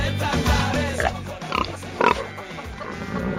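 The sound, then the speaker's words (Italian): Pigs grunting and squealing on a farm among goats: a few loud, sharp squeals rise above a dense, continuous layer of lower grunting and snuffling. “Di Pietro in mezzo alle capre e ai maiali.”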